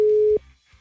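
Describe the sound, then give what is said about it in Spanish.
A WhatsApp call ringing tone: one short, steady, mid-pitched beep lasting about a third of a second, then near silence. “Bueno, vamos a marcarle entonces, mi querísimo Rafiki. A ver si nos contesta.”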